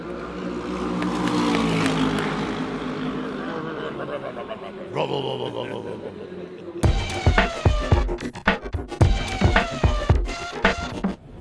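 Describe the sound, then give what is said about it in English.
A Lexus race car passes during the Le Mans 24-hour race. A broad engine roar swells and fades, then gives way to loud, choppy, uneven bursts of sound. “Oh, we've got a race, and here comes the Lexus!”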